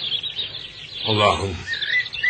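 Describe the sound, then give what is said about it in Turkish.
A bird chirps near a marsh, giving thin, high tweets that are faint and intermittent across the short span. “Kuş bizden kaptığı ekmeği ona yediriyor.”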